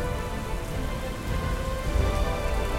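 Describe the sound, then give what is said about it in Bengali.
Heavy rain pours down in a thunderstorm, a dense, steady hiss of drops that stays loud and even from start to finish. “ভীষণ বৃষ্টি শুরু হলো তার সাথে বজ্রপাত”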